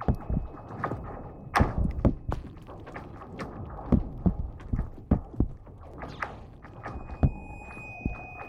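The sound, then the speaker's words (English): Eerie zipping pings from a lake, each a quick glissando sliding from high to low like a sci-fi blaster, arriving in many irregular bursts of varying loudness over a faint low rumble. “So you hear this sort of glissando from the highs to the lows, like doo, doo, which most people recognize as like the Star Wars blaster sound.”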